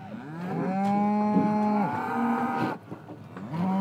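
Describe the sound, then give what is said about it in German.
A bull weighing over a tonne bellows in long, deep, loud moos, a few drawn-out calls with a rich harmonic tone and a brief pause between them. “So, da kommt der Gegner. Mehr als 1 Tonne wiegt der Bulle.”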